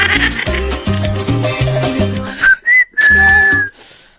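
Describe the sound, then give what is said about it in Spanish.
A person whistles a few short, clear notes and then one longer held note, heard alone after a stretch of rhythmic music fades out. “Ay, ese silbado parece. Ese silbadito parece mi compadre.”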